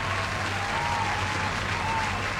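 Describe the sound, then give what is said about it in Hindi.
Audience applause, an even, continuous patter of many hands clapping at moderate volume, with a low steady hum underneath. “एक बार ज़ोरदार इस बात पर तालियाँ हो जाए.”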